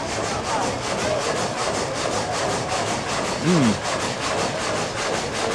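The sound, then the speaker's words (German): Gang saw cutting wood, a steady, loud rasping drone made of fast regular strokes that continues without a break throughout. “Wir gucken mal Sägegatter.”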